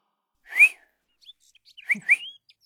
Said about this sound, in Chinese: 吹了声口哨，引得窗外的鸟跟着叫